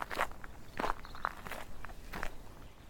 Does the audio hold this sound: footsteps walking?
yes